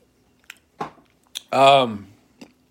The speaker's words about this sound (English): I'm chewing. Palmer candy.